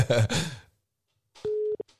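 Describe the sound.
A telephone call ringing out: a voice speaks, then after a pause a short, steady ring tone sounds, followed by a brief blip.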